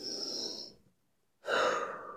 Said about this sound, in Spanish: Voy a respirar.